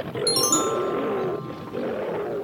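A lion roars in a long, continuous rumbling growl at steady loudness, with bright chime-like tinkling tones above it in the first half.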